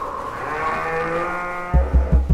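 A cow gives a long, low, droning moo whose pitch sinks slightly as it goes on. A few heavy, muffled low thuds follow in quick succession right after it.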